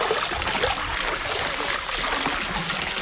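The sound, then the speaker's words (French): Running, splashing water as soaped laundry is rinsed by hand at a wash house, a steady continuous wash of water without clear breaks. “Alors, une fois que le savon a bien été étalé, de le rincer à nouveau dans l'eau.”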